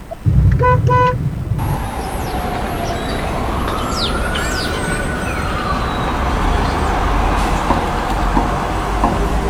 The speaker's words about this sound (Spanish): Estoy afuera, creo que toque bocina,